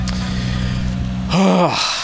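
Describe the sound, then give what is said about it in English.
One deep breath drawn quickly and audibly, like a short gasp, over a steady background hum. The airy intake lasts under half a second. “Okay. Deep breath.”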